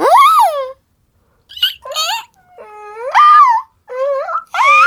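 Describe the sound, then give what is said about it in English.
A voice imitates the calls of a porg, a small fictional alien creature, in several high, squeaky squeals that warble up and down in pitch, with brief pauses between them. “and the fact that we heard what porgs sound like. They sound like this. They sound like a...”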